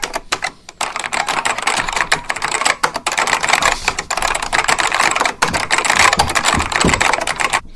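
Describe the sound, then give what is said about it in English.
Rapid typing on a computer keyboard: a dense, continuous clatter of loud key clicks that runs through the whole stretch, with a couple of brief pauses and no talking. “Now I got to type it all again. Hold on.”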